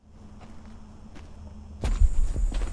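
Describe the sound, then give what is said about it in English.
Footsteps of two soldiers with guns drawn, picking their way cautiously along a wide, dusty, rough trench beside a road. Soft scuffs come first, then several louder, heavier crunching steps in the second half. “The two soldiers are walking along a wide, dusty trench at the side of a road. They have their guns drawn as they cautiously pick their way along the rough path.”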